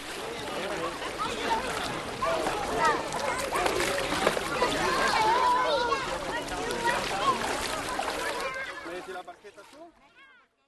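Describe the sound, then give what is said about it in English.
Water at Walden Pond splashes and sloshes, as if around a small boat, with a continuous busy wash of watery noise and distant voices, including a child's, before fading away toward the end. “as we listen to the sounds of Walden Pond”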